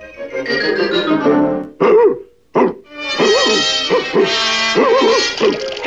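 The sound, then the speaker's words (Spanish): A cartoon dog barks in a dubbed animated short, giving a few tonal, yelping barks and whining cries, with short sharp bursts early on and then a busier run of yaps. “¡Perro delator!”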